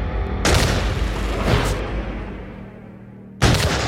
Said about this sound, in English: a British private receives a severe blow to the head with a club and falls to the ground, causing his musket to discharge. In the melee, the soldiers open fire.